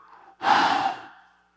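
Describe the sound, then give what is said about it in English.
A voice imitates breathing on someone with a single forceful breath out. The airy, rushing exhale lasts about a second and then fades away. “He breathes on them.”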